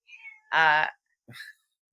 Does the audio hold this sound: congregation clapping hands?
no